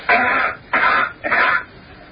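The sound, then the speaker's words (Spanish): Three coughs, a demonstration of how coughing sounds on Earth and on Mars: short, harsh bursts at a steady rhythm with brief gaps between them, loud and muffled, with no talk over them. “Vamos a repetir la tos en la Tierra y la tos en Marte.”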